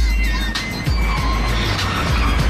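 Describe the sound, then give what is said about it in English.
A sports car pulling up outside a house, its engine a steady, loud low rumble with a few brief shifts in tone as it slows. “pulls up outside a house in his sports car”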